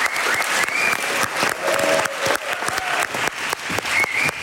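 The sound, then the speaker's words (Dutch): Audience applause at a poetry competition awards event: many hands clap in a dense, continuous patter at steady loudness throughout. “Applaus, applaus.”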